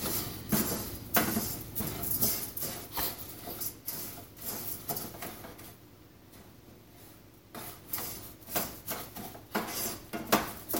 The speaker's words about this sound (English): Okay, all the pasta's in, so you just pretty much stir it consistently.